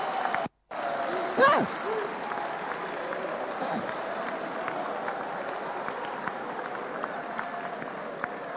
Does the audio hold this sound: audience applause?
yes